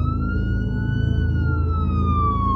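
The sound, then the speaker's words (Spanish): A police siren wails in the distance, a steady tone that rises slightly and then slowly falls, over a low, continuous rumble. “A lo lejos, se oyó una sirena de policía.”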